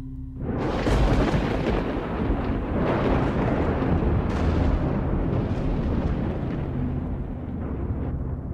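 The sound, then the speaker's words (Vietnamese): Thunder rumbles across the sky in a long, loud, deep roar. It starts abruptly and holds steady for several seconds, with no voices. “từ trên tầng không tiếng sấm vang trời”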